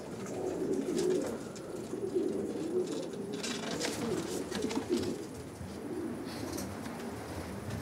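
Homing pigeons cooing: a steady, continuous stream of soft, low, throaty coos from several birds overlapping, with occasional brighter rustles and chirps on top and no talk.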